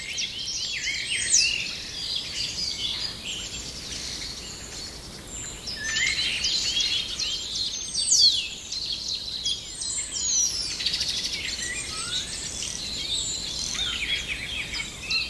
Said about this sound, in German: Da diese hohen Pfiffe. Piep. Dieses Knistern und Knattern, all das ist Star. Der Star unter den Vögeln, weil er so viele Stimmen imitieren kann.